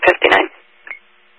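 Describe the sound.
Radio paging tones sound during a Hertford County tone and all-call test. Two loud, buzzy bursts come in quick succession, followed by a brief, fainter tone after a pause.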